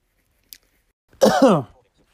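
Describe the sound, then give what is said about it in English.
A single sneeze from someone coming down with a cold: a faint click, then a short, sharp voiced burst lasting about half a second, with silence around it. “gosh, that sneeze hurt me.”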